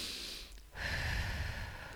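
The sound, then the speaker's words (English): A deep breath, a soft breathy rush that swells after a brief dip and then holds steadily to the end, heard alone without speech. “When we are challenged, learn to pause. Take a deep breath”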